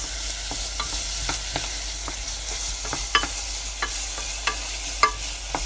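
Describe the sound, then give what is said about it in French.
Pearl barley is stirred in melted butter with onion and garlic in a pan. A steady sizzle of frying runs throughout, with many sharp scraping clicks from the stirring spaced irregularly across it. No one speaks. “Et puis, on remue pour bien enrober l'orge du beurre qui est fondu et puis de l'oignon et de l'ail.”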